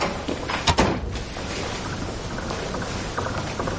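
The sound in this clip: A door is shut as someone comes in from a stairwell landing, giving a brief knock-like thud near the start over a steady, noisy background hiss.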